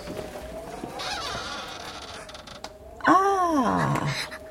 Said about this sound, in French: Qu'est-ce qu'elle a, cette porte? À coincer comme ça.